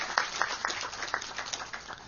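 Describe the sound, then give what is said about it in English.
Polite applause from an audience: faint, scattered claps, a handful of separate sharp hits rather than a full ovation, thin and irregular over about two seconds. “Thank you for your polite applause, but you need to do this.”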